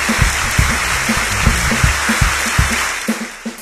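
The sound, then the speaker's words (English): Applause breaks out for a person just urged to say a few words, a dense, even wash of clapping that holds steady throughout, alone without any talk. “They're applause for you.”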